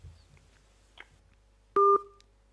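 A single short, loud electronic telephone tone, steady in pitch, cuts in after a stretch of faint low background noise and ends abruptly.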